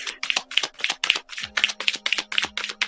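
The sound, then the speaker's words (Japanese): Oracle cards are handled and drawn from a deck, giving many crisp, rapid snapping taps in a steady rhythm, with a low hum running underneath. “それではね、今日のオラクルカードを引いていきましょう。”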